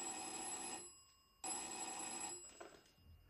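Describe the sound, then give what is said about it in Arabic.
A home telephone bell rings in two bursts of bright, rapid trilling separated by a short gap. The ringing is faint and trails off into quiet at the end. “في يوم سمعت جرس التليفون.”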